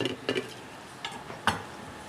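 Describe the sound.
Knife slicing half a stalk of lemongrass thinly for a Chong-style chili paste, with garlic and shallots on hand. A few sharp, crisp cuts stand out over a steady background hiss.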